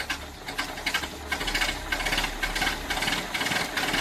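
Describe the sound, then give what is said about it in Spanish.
An early motor car's engine, a getaway vehicle in a robbery about a century ago, runs with a rapid, rattling mechanical chug. It is a steady stream of pulses, fairly loud, with no voices. “En cuanto comenzó a funcionar el motor, el automóvil salió a gran velocidad”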